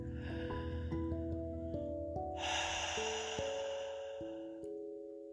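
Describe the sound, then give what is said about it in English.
A slow, faint breath drawn in and let out through the mouth, soft and airy, over quiet sustained musical tones. “Will you breathe in through your mouth and out through your mouth?”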